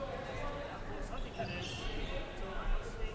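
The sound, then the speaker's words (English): A basketball is dribbled on the court during a women's college game, with a few soft bounces mixed into steady crowd noise and voices. “Comes left on the dribble.”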